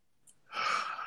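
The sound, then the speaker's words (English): A single deep breath drawn in, starting faint and swelling into a long, airy inhale heard alone. “Let's take a deep breath first. All right, let's take a deep breath.”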